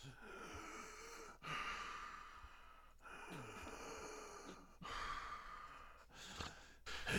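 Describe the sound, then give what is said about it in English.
Deep, labored breathing of a creature, voiced by a person imitating it: a few slow, heavy breaths and sighs separated by short pauses, all fairly faint. “It starts taking deep, labored breaths.”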